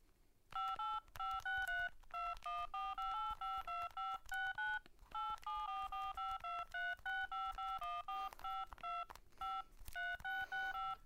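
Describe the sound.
A telephone number being dialed on a keypad: many short, clear electronic beeps of varying pitch, in quick rhythmic runs with brief pauses between groups, and no talk.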